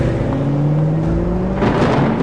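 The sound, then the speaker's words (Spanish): A taxi engine accelerating hard at about 2 a.m.: a loud, continuous motor drone whose tonal harmonics climb slightly in pitch throughout. “Ahí aceleré a todo lo que daba el taxi para alejarme de ahí del sitio.”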